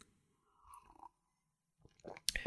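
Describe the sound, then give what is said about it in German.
Tea is sipped from a cup: two short bursts of soft, wet mouth sounds separated by a quiet pause, the second ending in a few sharper clicks. “Und ich glaube, zwischen den Monaten nehme ich einfach mal so einen Schluck Tee.”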